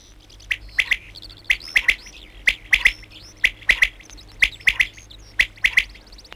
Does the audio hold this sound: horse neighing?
no